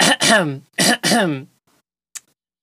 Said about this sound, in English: do I have to do the clearing throat sound for my own poem as well?